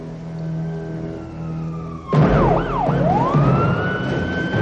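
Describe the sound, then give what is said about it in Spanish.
Police car sirens wail as several patrol cars head toward a subway station where a transit officer was shot: a steady tone at first, then loud siren sweeps that rise and fall repeatedly over a low rumble. “Mientras, varios coches de policía van hacia el lugar”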